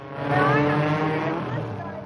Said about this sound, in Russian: Треск моторов пулеметной дробью завис над трассой.